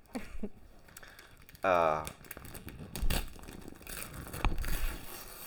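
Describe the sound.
Gift wrapping is ripped open on a present, with quiet paper crinkling and several sharper tearing bursts spread over a few seconds. A brief voice sounds partway through.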